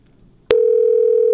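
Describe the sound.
A telephone line gives a short click followed by a steady, even dial tone that holds unbroken to the end, with nothing else heard.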